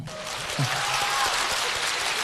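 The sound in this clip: Audience applause at a live comedy performance: a dense wash of clapping runs throughout at an even level, with a brief low voice-like sound near the start.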